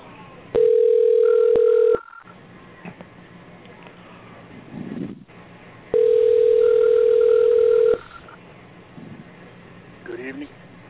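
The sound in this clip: A telephone line gives two long, steady tones while a call is being placed. A gap of quieter line hiss separates the tones.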